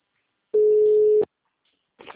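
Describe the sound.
A telephone ringback tone sounds on an outgoing call: one steady, mid-pitched electronic tone lasting under a second, alone, then silence before a brief faint sound at the end.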